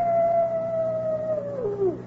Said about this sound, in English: you know what that coyote's howling about? He just calling for his lady friend.